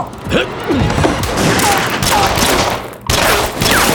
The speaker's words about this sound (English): Now they were facing strangers armed with automatic weapons in the master's parlor, and in such a situation, there was only one appropriate response. They opened fire.